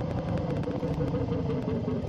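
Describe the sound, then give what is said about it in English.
Motorcycle engine giving a steady, mid-pitched rumble at moderate loudness, holding an even level throughout with no clear swell or fade. “Oh, he just drove by again. He's driving back and forth. Yeah, he looks like he's on a Lugs bike, but they changed the paint job.”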